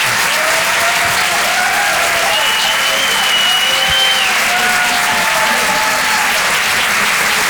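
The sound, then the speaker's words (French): Applause from a comedy club audience: dense, steady clapping fills the whole clip, with cheering voices mixed in. “Faites un maximum de bruit, s'il vous plaît, pour Gaëtan Husson.”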